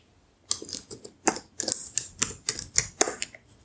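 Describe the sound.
Typing on a laptop keyboard during a softly spoken question-and-answer session: many light, crisp key clicks tapped at an uneven pace, quiet and dry, with no talking.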